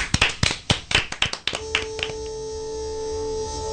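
Hands clapping in a quick burst of about a dozen sharp, uneven claps that thin out and fade, followed by a steady sustained tone.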